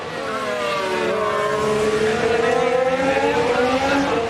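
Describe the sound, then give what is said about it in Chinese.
Two Mercedes Formula 1 race cars drive past with a loud, sustained, high engine whine whose pitch drifts up and down throughout. “两辆梅奔的赛车”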